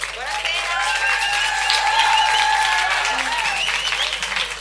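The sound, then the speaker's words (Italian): Audience applause greeting a performer at a live radio event, dense steady clapping throughout, loud and continuous, with faint voices and a high whistle-like tone in the crowd noise. “fatele un applauso.”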